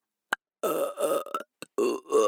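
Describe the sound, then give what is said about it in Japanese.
Several drawn-out, gurgling burps follow one another in quick succession after a short click. They are loud and low-pitched, with no talk around them. “ゲップ手こぎでいけ。いけっつってんだろ。”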